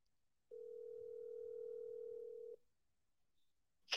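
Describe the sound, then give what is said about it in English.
A telephone tone as a call is placed: a single steady hum held for about two seconds, fairly quiet, then cutting off abruptly, followed near the end by a short sharp click. “So let me just call her real quick.”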